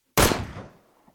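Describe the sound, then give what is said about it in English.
A single gunshot from a 9 millimeter pistol fired at point blank range: one loud, sharp crack whose rumbling tail fades away over about a second, with nothing else around it. “the killer placed the barrel of his 9 millimeter to the center of Rosenberg's forehead and fired at point blank range.”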